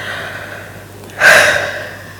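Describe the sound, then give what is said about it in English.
A single deep, loud breath: a sudden breathy gasp that swells sharply and then tapers off over about a second, heard on its own with no talk. “did you hear that deep breath? Yeah, very deep breath.”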